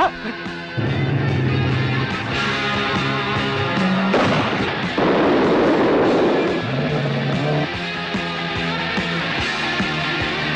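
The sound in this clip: A grenade explosion in an action film trailer: a loud, roaring burst of broad noise that rumbles for a few seconds over a continuous music score.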